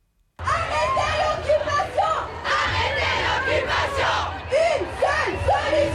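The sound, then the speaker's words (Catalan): A large protest march against the G7 summit in Geneva, by Lake Geneva, fills the air with loud, continuous crowd yelling and chanting, many voices shouting over one another after a brief silent start. “I ha començat a Suïssa, a la ciutat de Ginebra, l'única manifestació autoritzada contra la cimera del G7.”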